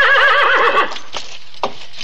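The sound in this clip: A horse neighs in a Western setting: one loud, shrill whinny that wavers and falls away, then a few faint thumps.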